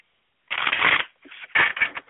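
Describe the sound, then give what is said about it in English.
Cards from a goddess oracle deck being shuffled by hand: two quick bursts of crisp, papery fluttering, the second broken into shorter flicks, with no other sound. “Let me shuffle two more times. One more time.”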